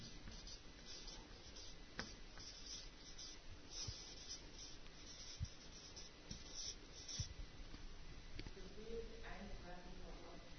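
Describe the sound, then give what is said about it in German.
Faint scratching of a pen writing on paper, a steady soft rasp with small irregular strokes and no clear pauses. “Also ich schreibe nun mal Gebet.”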